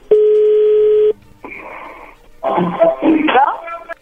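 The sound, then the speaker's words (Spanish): A telephone number is being redialed: a loud, steady tone lasts about a second, then fainter line sounds follow, and voices come through over the line. “¿Puedes marcar de vuelta? Sí, le están marcando de nuevo.”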